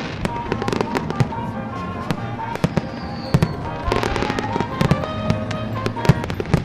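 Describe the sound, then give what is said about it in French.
A fireworks display ends a town festival in Le Touquet, with many sharp bangs and crackling bursts in an irregular rhythm that grow thicker toward the middle and end. “Une fête qui s'est terminée en apothéose par un superbe feu d'artifice.”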